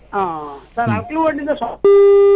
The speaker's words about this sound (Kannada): ಕರೆ ಕಡಿತವಾಯ್ತು, ಮಾತಾಡಿ ಶ್ರೋತೃಗಳೇ.